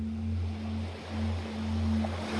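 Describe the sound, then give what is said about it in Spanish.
Gentle surf rolls in on a deserted beach, soft washes of water rising and falling in slow swells, fairly quiet, with a faint steady low hum beneath. “La playa está desierta. Tienes la playa entera para ti.”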